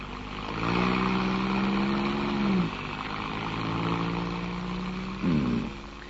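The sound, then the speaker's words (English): A car engine revs as the vehicle drives quickly out of alleys. The steady humming note shifts pitch twice before settling. “Now drive out of the alleys as quickly as you like”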